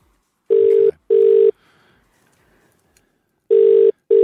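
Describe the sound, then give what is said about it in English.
Telephone ringing tone on an outgoing call, heard as two pairs of short, steady, buzzy tones with a long silent gap between the pairs; the second pair is cut off at the end. “We are dialing.”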